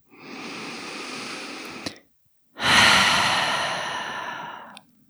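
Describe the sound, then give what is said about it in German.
Deep breathing out through the open mouth: two long, airy breaths separated by a short silence. The second breath is louder and fades slowly. “Nimm ein paar tiefere Atemzüge ein und aus. Geh mal durch den geöffneten Mund loslassen.”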